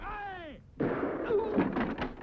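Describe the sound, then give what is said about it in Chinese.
A gunshot with a bullet grazing a man's arm on a rooftop: a falling, whistling whine sweeps down, followed by a dense, noisy burst that carries on for over a second. “刚刚爬到屋顶，一颗还有那么点灵气的子弹在皮特的胳膊上蹭了一下。”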